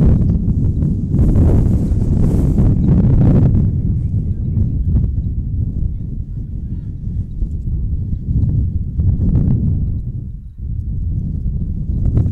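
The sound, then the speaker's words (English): Strong, relentless wind blows at an outdoor softball game, a constant low roar buffeting the microphone for the whole clip with only brief dips. “The wind has been relentless. It has not stopped blowing”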